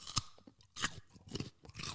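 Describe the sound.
Someone crunchily chews a raw carrot with a few separate bites and crackling chews, each a short burst of crisp snapping, with quiet, softer munching in between.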